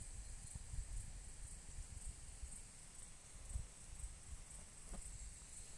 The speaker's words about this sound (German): Über dir hörst du es in den Blättern rascheln. Ein Eichkätzchen schwingt sich von Ast zu Ast,